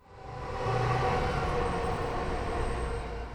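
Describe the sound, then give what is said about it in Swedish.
A commuter train at a station gives off a steady rumbling roar that builds over the first half second, then holds loud and even throughout, with a faint high whine riding above the low drone. “jag har tagit pendeln till Spånga station”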